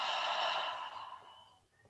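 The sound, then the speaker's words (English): A deep breath is released through the mouth as a soft, breathy sigh. It is fairly faint and gradually fades out over about a second and a half, with no talking. “just start by literally taking a deep breath through the nose and being aware of that breath. Pause and release through the mouth.”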